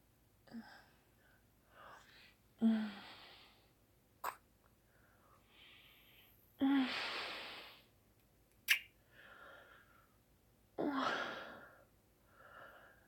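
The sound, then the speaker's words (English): Soft breathing from a person sitting on a couch: a few long, airy breaths with quiet pauses between them and a couple of short clicks. “Oh, that's my breath.”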